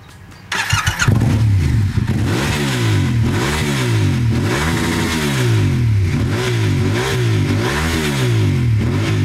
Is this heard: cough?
no